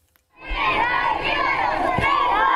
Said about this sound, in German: Es ist ein herzlicher Empfang. Wir lieben dich, rufen Kinder bei der Ankunft des Papstes am Flughafen Larnaca bei Nikosia.